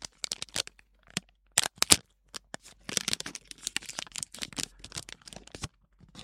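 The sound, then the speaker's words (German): Crinkling and tearing of packaging as an object is freed from heavy wrapping: many sharp, dry crackles and rustles in irregular bursts, some louder snaps, with short quiet gaps between handling. “Ich werde es jetzt mal aus der Verpackung lösen.”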